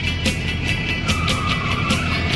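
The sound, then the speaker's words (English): Motorhome driving on tarmac, a steady engine and road hum broken by a series of regular rhythmic pulses, with no voices. “Mazer watches as the motorhome drives behind the truck.”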